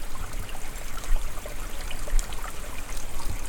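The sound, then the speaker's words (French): Water laps and trickles steadily in a small wash-house in a forest. The liquid wash is continuous and moderately loud, with small splashes rising and falling, and no voices. “Avec le dos clapoti de l'eau et quelques mésanges éparses.”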